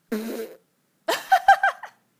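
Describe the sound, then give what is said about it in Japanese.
Two fart bursts: a short buzzy one first, then after a pause a longer sputtering release that breaks into several pulses of shifting pitch, both fairly loud. “キモいお前の顔におならぶっ放してやったんだよ。”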